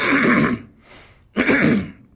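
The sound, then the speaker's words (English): A person clears their throat in two harsh, rasping bursts, separated by a short, quieter pause. “Excuse me, I just can't get my throat clear to breathe.”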